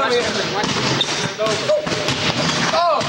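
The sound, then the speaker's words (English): A basketball bounces on the gym floor during basketball practice, with repeated thuds under steady talk. “At basketball practice, the one black player sinks a difficult hook shot.”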